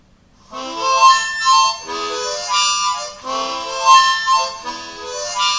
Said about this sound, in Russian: например, если я играю на минорной гармошке просто, ничего, как бы, ничего не делая никаких эффектов, просто подряд туда-сюда дую, то у меня это звучит примерно так.